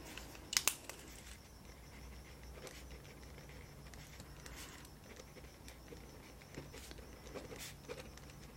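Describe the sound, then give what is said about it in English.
Faint pen-on-paper scratching as a quick note is jotted down during a soft-spoken ASMR assistant role-play. Short, irregular strokes and light paper rustles sit at low volume, with one sharper crinkle near the start. “let me just, I'm gonna just write a quick note. Don't mind me.”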